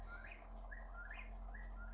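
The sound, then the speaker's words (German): Faint bird chirping from a video game: short, thin whistled notes that sweep upward, repeating several times at a fairly even pace over a steady low hum. “Oh, dieses Vogelgezwitscher. Das klingt so echt. Ich wollte gerade gucken, ob hinter mir in meinem Zimmer gerade irgendein Vogel ist.”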